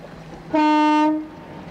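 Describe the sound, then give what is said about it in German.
A ship's horn sounds as the vessel departs, one sustained blast at a steady pitch with rich, buzzy overtones, starting abruptly and fading out after well under a second, alone over a quiet background. “Ich glaube, die Henriette fährt ab.”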